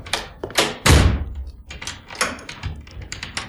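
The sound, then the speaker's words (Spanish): A door is shut and locked with a key: a heavy thud as it closes, then a series of smaller knocks and clicks of the lock, fairly loud and with no voices. “Y cerró la puerta con llave.”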